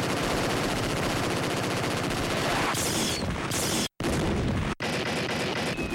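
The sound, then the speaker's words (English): Sustained rapid gunfire as forces open fire: a loud, continuous barrage of automatic shots, with two brief gaps near the end. “The fools believe they have us trapped in a corner. We'll show them how wrong they are. All forces, open fire!”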